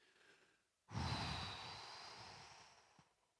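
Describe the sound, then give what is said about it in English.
A single long exhale emptying the lungs during a guided breathing meditation: a breathy rush that starts abruptly, stays loud, then slowly tapers over about two seconds, after a faint softer breath. “Exhale all the air from your lungs.”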